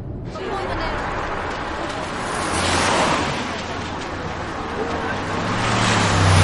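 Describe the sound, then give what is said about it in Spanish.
Car traffic as a vehicle pulls up at the door of a luxury hotel: broad, steady road noise swells midway and again at the end, where a low engine hum grows. “El coche se detiene ante la puerta de un hotel de lujo.”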